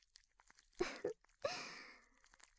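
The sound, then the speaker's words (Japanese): Tentacles slither squelchily into the listener's head: three quiet, wet, crunchy bursts, the last one longest and trailing off, with near silence between them. “ほら、私の触手がずるずるとあなたの頭の中を進んで”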